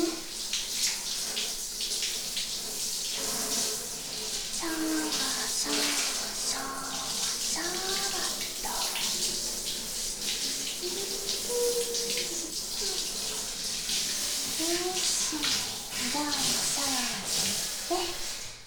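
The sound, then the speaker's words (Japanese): Water runs steadily from a tap or shower while hair is washed. A continuous, fairly loud hiss fills the whole passage with only small shifts in level. “綺麗に洗っていきますよっと。はい、じゃあ頭から順番に洗っていきますね。”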